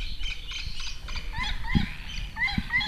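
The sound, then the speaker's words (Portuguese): A small bird calls in an immersive 360-degree soundscape, giving a few short, high, bright chirps over a dense bed of other calls and low rumble. “este passarinho não está lá ao fundo, está aqui.”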